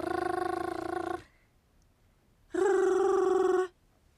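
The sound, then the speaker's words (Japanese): Two sustained rolled-tongue trills, the buzzing 'ru' sound used in a lullaby's baby-soothing nonsense syllables. Each lasts about a second at a steady pitch, separated by a short pause. “ルーという舌を震わせる音が入っているのが特徴的ですね。”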